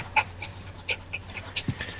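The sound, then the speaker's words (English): A dog panting softly with a few brief, high whimpers, faint over a steady low hum. “Is there a dog in the background? Yeah, can you hear him?”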